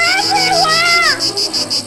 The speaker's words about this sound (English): as the once silent air erupts into the vibration of incessant buzzing of terror, comes a swarm of zombie-like creatures.